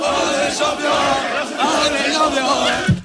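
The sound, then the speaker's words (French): Thousands of football supporters shout and chant while celebrating at night on the Champs-Élysées in Paris. The sound is a loud, dense, continuous roar of mingled voices and cries. “Au milieu de la nuit, des milliers de supporters ne voulait plus quitter les Champs-Élysées.”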